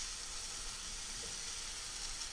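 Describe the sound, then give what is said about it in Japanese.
A small amount of finely chopped ingredients being stir-fried in a pan gives a faint, steady sizzling hiss with no break and no voices. “ここである程度しっかり食べられるぐらいまでは炒めてしまいましょう。量が少ないので焦げつかないように気をつけてくださいね。よく混ぜながら炒めるといいと思います。”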